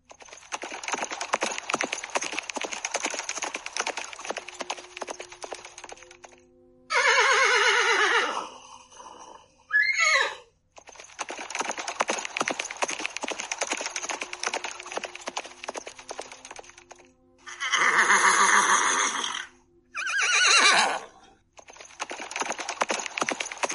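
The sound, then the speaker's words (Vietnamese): Horses neighing noisily, a herd of more than 800 captured warhorses, come in several loud, shrill whinnies in separate bursts. Long stretches of dense, steady crackling noise fill the gaps between them, and no voices are heard. “Lời vừa phát ra, liền nghe phía sau một trận ngựa hí ồn ào.”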